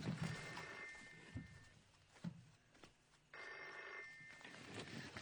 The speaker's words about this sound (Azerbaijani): Telefona gərək cavab verəm.